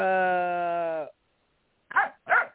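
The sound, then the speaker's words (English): A long, steady tonal sound gives way to silence, then a dog gives two short, sharp barks in quick succession. “So, damn dog.”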